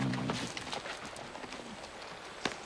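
A horse walks with faint, soft clip-clopping hooves in an irregular rhythm over a steady background hiss, and one slightly sharper knock stands out near the end.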